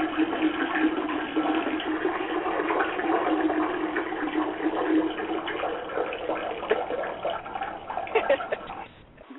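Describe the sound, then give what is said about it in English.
A toilet flushing, its steady rush of water filling the whole stretch before thinning out at the very end, moderately quiet with no voices. “I just heard a toilet. I didn't hear no one pissing.”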